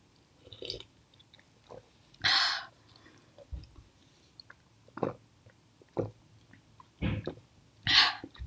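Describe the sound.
Chewing and biting as someone tastes food, a few irregular crunchy bursts separated by quiet gaps, with no talk over them.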